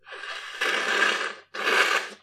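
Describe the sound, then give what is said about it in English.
A person snorting to clear their nose, two forceful breathy bursts through the nose, the first longer than the second, with a brief gap between them. “Excuse me. Sorry about that, ladies and gentlemen. Just a little bit of schmutz in my nose, but now we're clear.”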